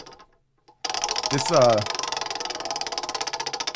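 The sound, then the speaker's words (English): A prize wheel spins with a rapid, steady run of ratcheting ticks that continues to the end. A voice is briefly heard as the spin begins. “What do you say we get to this wheel again? Let's roll it.”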